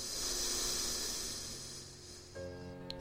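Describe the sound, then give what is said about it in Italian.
A slow exhale through the right nostril during an alternate-nostril breathing exercise, heard as a soft, steady airy hiss that gradually fades away. “apnea, apro la destra, espiro”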